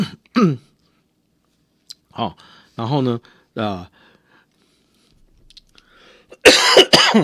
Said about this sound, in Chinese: 抱歉，我最近因为感冒，所以咳嗽请各位好朋友们能够多多忍耐